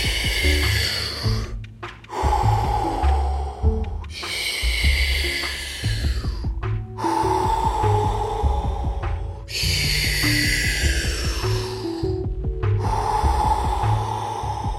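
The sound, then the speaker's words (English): Forceful breathing in an energising breath exercise: roughly half a dozen long, loud breaths, each lasting a couple of seconds, alternating between airy, hissing inhales and exhales with a steady, even pace. “Imagine heat, energy on the inhale. Cold air on the exhale.”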